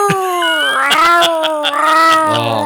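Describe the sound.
A person imitates a dying cat with a long, loud, wavering howl-like whine that bends up and down in pitch almost without a break, sounding strained and pained.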